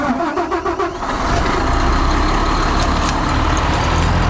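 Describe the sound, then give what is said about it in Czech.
A high-speed shredder starts up at a green-waste yard where material is crushed for faster composting. A few uneven bursts lead into a loud, steady mechanical roar that holds to the end, with no voices. “Jdu startovat rychloběžný drtič.”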